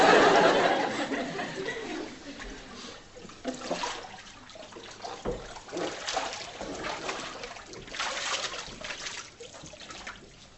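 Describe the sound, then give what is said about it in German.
Water pours and splashes over a person during a baptism, a continuous rushing wash that swells and ebbs in several surges for about ten seconds. “So taufe ich dich in den Namen Jesu, auf den Namen Gottes des Vaters, des Sohnes und des Heiligen Geistes. Sie wollte ganz nass werden, hat sie mir vorher noch gesagt.”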